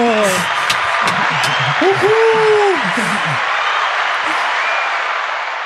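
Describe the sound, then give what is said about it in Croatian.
Loud, sustained applause from an audience fills the whole stretch, with voices and laughter audible over it in the first half before the clapping carries on alone. “Ovaj pljesak je tako glasan. Ali dobar, dobar je izvuče nas iz ove nelagode”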